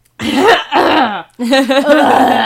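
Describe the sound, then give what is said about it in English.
Heaving or retching from a person, in three loud, strained, voiced bursts with brief gaps between them, rough and throaty like forced gagging. “Excuse me while I heave.”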